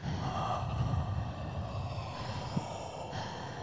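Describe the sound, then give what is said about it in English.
Several people breathe into a microphone, producing soft, airy breaths and exhales that form a steady rush and fade slightly toward the end. No one speaks. “we just breathe into the mic”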